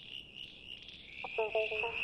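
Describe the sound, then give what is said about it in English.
A male southern brown tree frog calling for a mate: a short burst of a few rapid, pulsed rasping notes over a steady, high, insect-like drone. “That's the sound of a male southern brown tree frog looking for a date. It's music to the ears of a female southern brown tree frog.”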